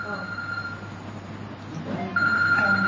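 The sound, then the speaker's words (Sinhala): A phone rings: a steady, bright electronic tone comes in near the end and holds over a low, continuous background hum. “දැන් මට එතන තව අන්න ඔය සද්දේ ඇහෙනකොට ෆෝන් එකක් ඉස්මතු වුණා.”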